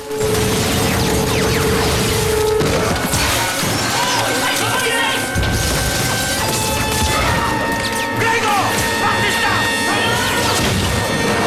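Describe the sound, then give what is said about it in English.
Glass shatters and cascades down inside a building amid machine gun fire, a dense, continuous barrage of crashing and clattering that runs the whole clip, with voices heard through it. “Broken glass cascades down and villains fall to the floor.”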